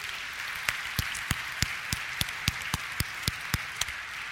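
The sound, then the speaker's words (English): An audience applauds as a speaker's mother is welcomed up on stage, with a soft continuous patter of clapping and sharp individual claps standing out at a steady, even pace. “Would you put your hands together and welcome her, Mom? Come on up.”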